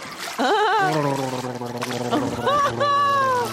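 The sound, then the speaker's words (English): A person gargles a mouthful of water taken from a toilet. The gargle is a loud, continuous, bubbling throaty warble that wobbles in pitch, breaks briefly and then resumes for several seconds. “I'm going to drink some of the water and gurgle it.”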